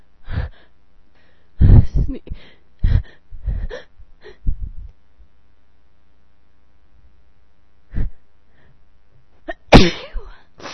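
A person with allergies sneezes in a sudden loud burst near the end, after a series of short breathy bursts and a long quiet pause.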